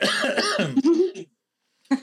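Choking coughs from someone who tried to breathe and swallow at the same time: about a second of voiced, spluttering coughs, a brief silence, then one short final cough.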